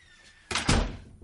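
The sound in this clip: A door swings shut with a brief scraping onset and then a single solid thump, fading quickly to quiet.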